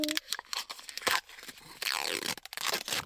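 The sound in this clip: A sealed package being torn open: several sharp tearing and crinkling bursts in an irregular rhythm, fairly quiet, with no talk.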